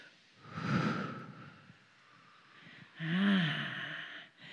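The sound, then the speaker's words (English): A group of people taking deep breaths in and out, heard as two long, loud swells of breathing a few seconds apart, with no talk over them. “You have to breathe in and breathe out. Take another deep breath.”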